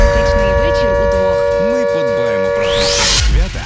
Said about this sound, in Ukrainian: Увага всім, повітряна тривога. Прослідуйте до найближчого укриття.